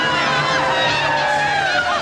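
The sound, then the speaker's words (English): A crowd erupts at an early motor race as a race car's engine overheats and smokes. It sounds like a dense, steady roar of many voices that holds without a break for about two seconds. “As Winton's engine begins to overheat and smoke, the crowd erupts”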